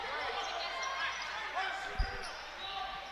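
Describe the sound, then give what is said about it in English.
A basketball dribbled on the court during a game: a few dull, low bounces, one clearly stronger than the rest, under a steady murmur of crowd noise and faint voices. “dribbles toward the left side”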